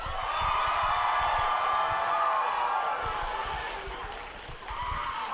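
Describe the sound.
An audience cheers and whoops in welcome at a Fan Expo Canada game show Q&A, a sustained, loud wash of crowd voices that holds for several seconds before easing slightly near the end.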